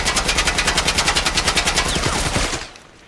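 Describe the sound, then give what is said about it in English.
An assault rifle fires in a video game: a long, evenly spaced burst of many sharp, loud shots in quick succession, then it stops abruptly and a faint tail fades out. “Assault rifle. New weapon. Ah! Assault rifle. Here's a new toy. Assault rifle. Check this out.”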